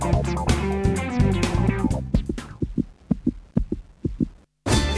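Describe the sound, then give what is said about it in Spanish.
Heartbeat sound effect, a regular series of low, paired thumps that follows a denser, louder musical passage and ends in a brief silence. “Cuando arrimás la oreja a La Colectiva, vas a escuchar latidos.”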